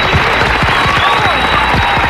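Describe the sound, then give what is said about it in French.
Loud, dense applause from a group, a continuous, even burst of clapping that holds steady for about two seconds. “Donc là je vais dire on va t'applaudir, bravo. D'ailleurs on va y mettre plus le paquet.”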